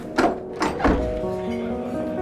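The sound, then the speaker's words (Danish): A door sound effect plays as someone enters a tavern in inner Copenhagen on an evening in 1868. A few dull thuds come first, followed by a drawn-out, creaking tone that lingers quietly. “Det er aften, og du er på vej ind ad døren til et værtshus i Indre København.”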